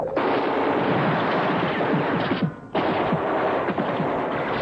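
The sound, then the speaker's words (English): Heavy, sustained gunfire in a wartime battle against German troops at a mountain pass, with dense, loud, rapid shots overlapping continuously and one brief break partway through, and no voices. “Hold your fire! You there, Bryant, this is not a bloody circus!”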